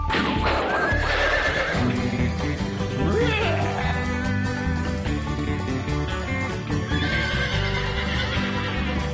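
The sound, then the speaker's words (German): A small pony being ridden, with hoofbeats and a whinny heard against a loud, dense, continuous background that fills the whole clip. “Wahnsinn, so ein kleines Pony ist ganz schön stark.”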